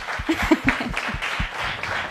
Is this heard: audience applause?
yes